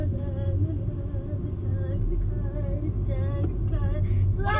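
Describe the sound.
A car driving gives off a steady low engine rumble that stays constant throughout, with no clear changes in speed or gear.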